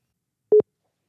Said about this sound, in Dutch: Dus we gaan er even bellen.